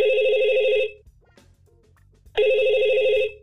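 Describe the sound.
A telephone rings for a call that goes to voicemail: two loud, trilling electronic ring bursts separated by a short quiet gap.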